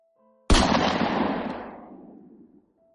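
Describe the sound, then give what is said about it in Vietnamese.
A single gunshot rings out over a container yard: one sharp, loud blast whose echoing tail fades over about two seconds. “Một tiếng súng vang vọng trong không trung. Nó phát ra từ phía dưới bãi container.”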